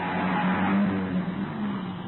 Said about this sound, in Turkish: Vay canına, şu arabaya bak. Son model.